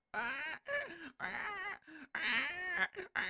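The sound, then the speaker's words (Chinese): A newborn baby cries in a series of loud wailing bursts separated by short breaths, its pitch wavering up and down within each cry. “在墙包当中有一个哇哇啼哭的孩子呀”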